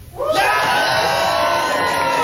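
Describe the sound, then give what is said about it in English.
An audience cheers after being asked to cheer for one of two performers. Loud shouts, whoops and screams rise at once into a sustained roar. “if you could only have one, do you feel like it would be A, Adam, a cheer for Adam?”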